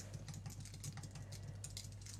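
Quiet, rapid typing on a portable computer keyboard resting on a desk: many light, irregular key clicks in a continuous patter over a steady low hum.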